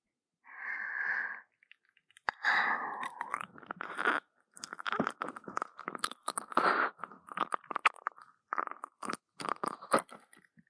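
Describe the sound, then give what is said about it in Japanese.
Wet licking and smacking mouth sounds, many short clicks and slurps in an uneven rhythm after a brief breathy, wheezy sound at the start, with no talking. “こちらも奥を舐めさせていただきます。”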